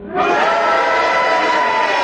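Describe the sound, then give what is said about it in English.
Loud audience cheering from a live panel-game studio crowd, rising abruptly after a brief hush and holding as a dense, steady roar for about two seconds. “Yes, the cheers, Paddy, the cheers.”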